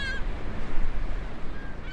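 Resting birds in a field recording give brief, faint honking calls at the start and again toward the end, set against a steady low background rumble.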